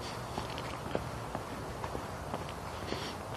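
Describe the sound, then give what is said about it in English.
Footsteps of a person out walking outdoors, soft and evenly paced, a steady series of light steps over a constant low background hiss, with no talking. “So, I went out for my walk. I came out. I'm here. I'm walking.”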